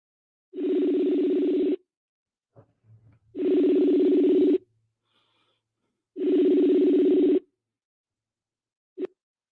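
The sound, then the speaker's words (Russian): Outgoing call ringing in a messenger app: three long, steady mid-pitched ringback tones separated by even silent gaps, then a brief blip at the end. “Вот давайте я вас набираю, а глядишь, получится.”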